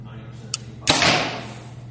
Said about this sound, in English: I don't like this bow. That's exactly what I shot at after the first time I shot it.